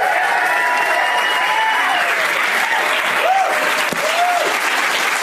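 Audience applause welcoming three comedians onto a stage: loud, dense clapping held at a constant level, with a couple of short rising-and-falling whoops from the crowd.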